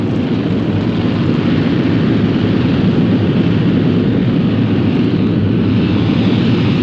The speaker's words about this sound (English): in a few seconds, we will increase power for terminal deceleration. Please remain in your seats until all rockets are shut down.